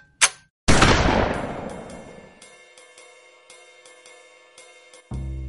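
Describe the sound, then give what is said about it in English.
A shotgun is fired: a brief sharp pop comes first, then a loud heavy blast whose noisy tail decays slowly over several seconds. “the goateed bastard pointed his shotgun at me and pulled the trigger.”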